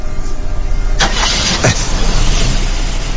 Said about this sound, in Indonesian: Ketika aku nyalakan mesin mobil,